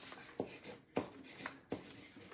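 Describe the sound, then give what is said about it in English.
Someone writes notes by hand with a few quick, scratchy strokes spaced about half a second apart. Each stroke is faint, with soft rustling between them and no voices. “You're right, you don't need to keep writing stuff down when I ask you a question.”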